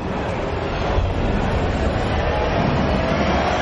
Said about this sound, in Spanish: Un tren pasa a toda velocidad.